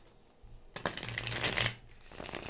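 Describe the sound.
A thick deck of tarot cards being shuffled: a quiet rustle swells into one dense, thuddy burst of riffling cards lasting about a second, then fades to a softer rustle.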